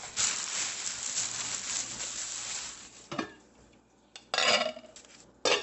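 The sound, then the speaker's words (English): Scraping and clattering of a spoon as salsa and tomato sauce, seasoned with pulled-pork spices, are ladled into a crock pot: dense continuous noise at first, then a few separate louder bursts. “So I'm going to take this salsa with some tomato sauce, with the spices that you would use for pulled pork, and put it in the crock pot.”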